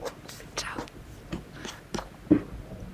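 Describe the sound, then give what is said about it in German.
Someone chews a tomato in their mouth, giving several wet, squelchy bites and mouth noises in an uneven rhythm, with one sharper bite near the end. “Und zwar werde ich nochmal eine Tomate mir in den Mund schieben und dann mich so verabschieden mit einer Tomate.”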